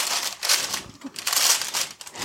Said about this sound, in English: that would be lining the pan with parchment paper. So we need a nice big square of parchment paper.